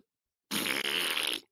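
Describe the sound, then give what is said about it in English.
A wet fart: one loud, spluttering, noisy burst lasting about a second, followed by the brief start of another sound right after it. “wet fart.”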